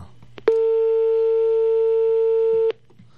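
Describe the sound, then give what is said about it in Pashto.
A telephone line tone for an incoming call on a radio call-in show: one loud, steady electronic beep lasting about two seconds, with faint sounds before and after. “یو کال هم راځي بابا نو چې واخلو که نه کال واخلو کال واخلو.”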